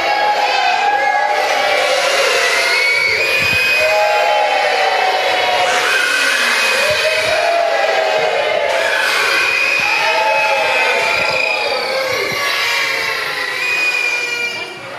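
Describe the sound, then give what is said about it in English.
Whooping crowd blowing noisemakers at a morning nativity gathering: loud, unbroken cheering layered with many overlapping reedy horn tones that waver in pitch, sustained at full volume and dipping only at the very end. “And then I'm going to lift up this arm and I want some whooping and some blowing of the... What are those called? Things. Okay. That means louder.”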